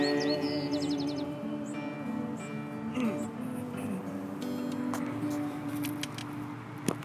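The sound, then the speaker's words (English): Birds chirp faintly in the background, with a few short rapid trills early on and scattered high tweets later, all over a quiet, steady low hum. “So you're never going to have the birds as a background again.”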